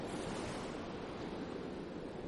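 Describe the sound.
Waves wash onto a sandy beach in a continuous, even roar of surf with no break and no voices.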